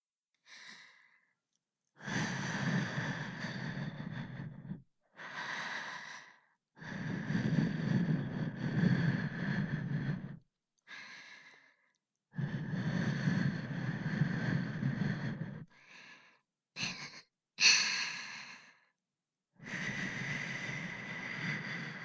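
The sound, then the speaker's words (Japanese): Long, airy breaths blown out to clear away fine dust, coming in many separate soft bursts of varying length with short silent pauses between them. “細かいゴミ、息吹きかけて取っちゃうね。”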